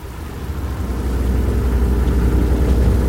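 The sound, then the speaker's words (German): A motorboat engine drives a police boat with a rotating blue light into the Grand Canal in Venice. It makes a steady, loud, low rumble that swells slightly after the first half second and then holds. “Bonsoin lenkte das Boot in den Canal Grande.”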